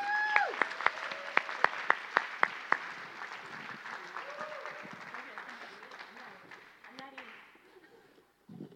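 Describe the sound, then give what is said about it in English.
An audience applauds to welcome a speaker, with dense, steady clapping and a few sharper claps early on, gradually thinning and fading out near the end. “give her a warm welcome”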